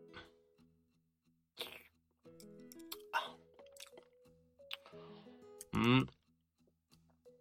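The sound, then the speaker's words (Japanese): Eating ochazuke, rice topped with flaked grilled salmon and covered in homemade dashi: a few wet, squishy chewing sounds and drips, then a louder slurp near the end. “焼いた鮭をほぐして手作りの出汁をかけて食べるこのお茶漬け”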